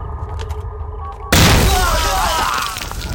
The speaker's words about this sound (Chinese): 他们放炮啊！ 什么炮？那是地雷，跟老子玩阴的